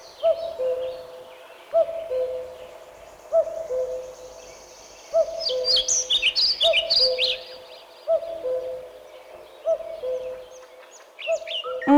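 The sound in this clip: A common cuckoo repeats its low, two-note call at a steady pace, many times over. Brief, higher bird chirps break in partway through.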